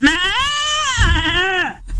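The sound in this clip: A person's voice imitates a goat's bleat in one long, quavering, nasal cry that wavers in pitch for under two seconds before breaking off.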